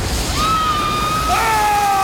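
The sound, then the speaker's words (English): A torrent of water gushes through a ceiling into an ant colony's tunnels, a steady, loud rushing roar with a thin high whistling tone running over it. “Water gushes through a ceiling, then towards an ant with a baby.”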